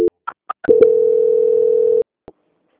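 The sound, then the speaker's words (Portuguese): A call-transfer tone on a phone sales line being passed to quality control: a few brief electronic blips, then one steady mid-pitched tone of just over a second that ends abruptly, followed by a faint click. “que eu vou transferir o contato para o controle de qualidade que dará continuidade à contratação”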